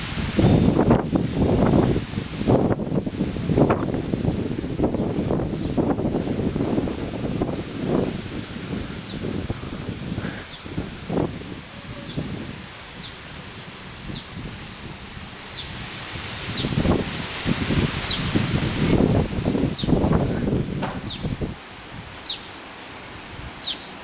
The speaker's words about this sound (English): I hope you hear the wind through the trees right now.